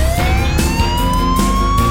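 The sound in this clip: A fire engine siren wails in a single tone that rises slowly and steadily, loud over a low engine rumble with no voices.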